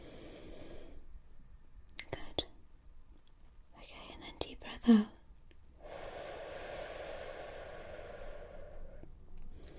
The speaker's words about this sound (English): Alright, and if you could take a deep breath in for me.